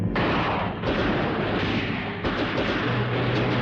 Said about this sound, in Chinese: 游击队轻机枪的子弹雨点儿般泻向敌阵